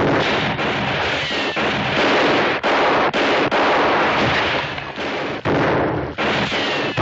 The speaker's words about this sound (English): Hold your fire. They ain't shooting back.